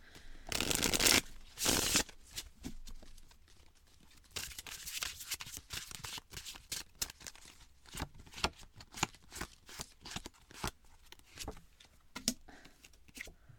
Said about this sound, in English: So let's pull some cards about how to support Anonymous's children.